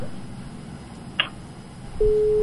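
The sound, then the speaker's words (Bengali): A telephone disconnected tone sounds after a caller's line drops during a live phone-in call. A single faint click comes first, then a flat, steady, mid-pitched tone runs to the end. “সংযোগটি বিচ্ছিন্ন হয়ে গেল, শ্রোতা বন্ধু আরেকটিবার চেষ্টা করুন।”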